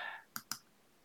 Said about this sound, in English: We're going to click on the H1697 for the word word.